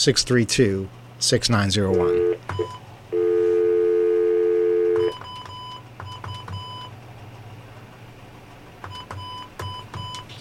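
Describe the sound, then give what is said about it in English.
Telephone keypad dialing tones ring out as a series of short electronic beeps, interrupted by one long steady tone lasting about two seconds, then further quick bursts of paired tones as a number with an area code is entered. “Let's try it with the area code. Dial 9 and then”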